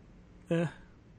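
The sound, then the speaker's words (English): A big yawn: one short voiced exhale with a steady, low-pitched tone that rises out of quiet background and fades quickly. “Is that a big yawn? Yep. That's exactly how I feel.”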